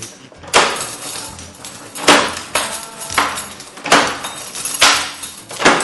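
A door that won't shut being pushed closed: several loud, jarring thuds and rattles in a rough repeated rhythm, each slam ringing briefly before the next shove.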